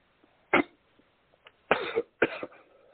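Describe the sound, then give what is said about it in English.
A person coughs after a drink went down the wrong pipe, giving a few short, harsh coughs separated by brief pauses, with faint small throat sounds between them. “excuse me, had drunk something, went down the wrong pipe.”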